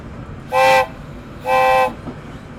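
A train horn sounds two sustained blasts of similar length at a steady pitch, separated by a short gap, over a low continuous rumble.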